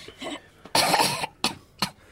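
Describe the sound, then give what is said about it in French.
A patient at a doctor's visit coughs in a few harsh, chesty bursts: one long loud cough, then two shorter sharp ones, with no talking. “Ne toussez pas! Ne tousse pas, mon chéri. Je ne peux pas m'en empêcher.”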